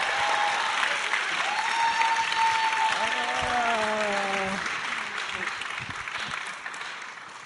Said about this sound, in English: 我们用最热烈的掌声来欢迎他。